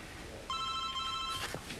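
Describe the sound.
A telephone rings with an incoming call: one fairly faint, steady electronic ring tone lasting under a second, followed by a short soft rustle, with no voices.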